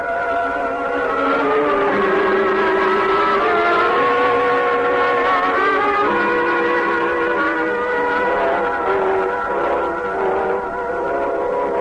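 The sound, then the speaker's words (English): A jeep's engine drones steadily as the vehicle drives up across a field, its layered tones shifting slightly in pitch throughout, loud and continuous with no voices. “Oh, look, Joe, across the field. Oh, we're not alone after all. There's a jeep.”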